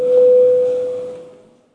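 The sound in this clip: A single steady electronic bell tone signals a vote in a parliament session. It holds one clear pitch, loud at first, then gradually fades out.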